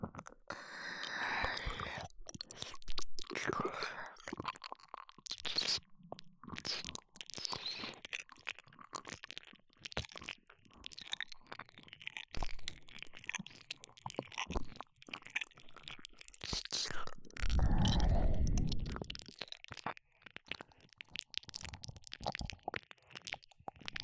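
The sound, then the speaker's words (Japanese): Wet ear-licking mouth sounds: many soft smacks, slurps and crunchy clicks in an irregular, fairly steady stream, with a louder, fuller stretch near the end. “ではサポートとしてお耳を舐めさせていただきます。”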